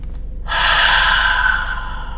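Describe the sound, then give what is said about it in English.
A single deep breath drawn in, beginning after a short quiet moment and carrying on as a long, loud, airy inhale that eases slightly toward the end. “If you find yourself tensing up, right? Especially with the change, whatever change is coming, you find yourself like, roll your shoulders back. I find that to be helpful. Take a deep breath.”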